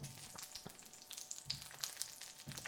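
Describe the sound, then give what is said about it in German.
Whole cocktail tomatoes frying in a pan for hummus pasta, a soft, continuous crackling sizzle with scattered small pops, faint throughout. “die frittieren wir da jetzt einfach ein bisschen mit.”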